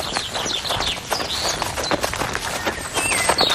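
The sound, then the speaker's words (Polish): Quick running footsteps on forest ground near Warsaw, a dense, steady patter of many rapid footfalls at even loudness with no voices. “Najpierw marsz, ale taki żwawy. Później biegamy.”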